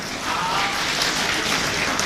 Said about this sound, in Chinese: 非常感谢大家热情的掌声鼓励，祝大家新的一年里身体健康，事事如愿，谢谢。